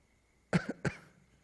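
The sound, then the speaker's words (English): A brief, fairly faint cough in a few quick bursts during a guided relaxation session, heard on its own with no talk. “But if you need to cough, please do so.”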